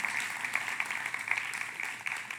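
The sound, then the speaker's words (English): Audience clapping during a sermon on scripture: a dense, steady patter of many hands that holds at an even, moderate level for the whole stretch, with small peaks from louder claps. “Okay, if you agree with that, would you clap so that I wouldn't feel all rejected?”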